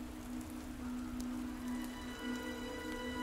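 Pouring rain makes a steady, even hiss of heavy rainfall that stays constant throughout, with a faint low hum underneath and no voices.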